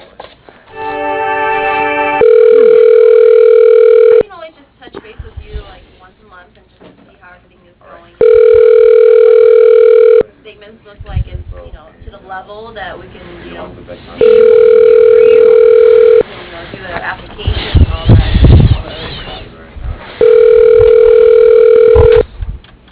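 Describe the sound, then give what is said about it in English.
Ringback tone on a telephone line as a call is transferred to voicemail: four long, steady buzzing tones of about two seconds each, evenly spaced, with muffled line noise and faint background sounds in between. “Let me transfer you to her voicemail. Hold on.”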